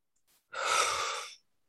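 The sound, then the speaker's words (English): A deep breath taken during a guided relaxation exercise: one long, steady, airy breath lasting about a second, preceded by a very faint short breath sound, with silence on either side. “And take a deep breath.”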